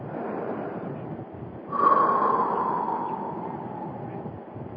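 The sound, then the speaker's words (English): A single deep breath during a breathing exercise: a breathy, rushing swell rises abruptly near the middle, then slowly fades over a steady background hiss. “Let's start with some deep breathing exercises. Breathe in from your abdomen and let all the negative energy out.”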